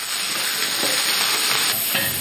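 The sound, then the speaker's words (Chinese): Wild rice stems from Taihu are blanched in boiling water, giving a dense, steady seething hiss with faint crackles throughout, no voices. “太湖茭白富含草酸，要用开水焯一下，去色的同时，让茭白内部的空腔受热膨胀，可以吸附鲜味儿。”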